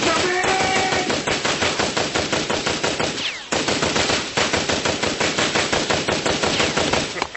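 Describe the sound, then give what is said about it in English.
A Tommy gun fires in long, rapid automatic bursts, a loud, dense rattle of shots that runs almost continuously, broken by one short pause midway. “Nice Tommy gun there, pal.”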